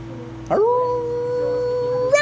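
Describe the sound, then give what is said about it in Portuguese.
Wolves howl far off in a forest: one long, sustained howl that swells upward at its start and then holds a steady, drawn-out pitch, with a low continuous tone underneath. “Vocês escutam no meio da mata uivos ao longe. Uivos de lobos.”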